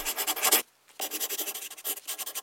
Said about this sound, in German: Ich will nur kurz einige Zeilen schreiben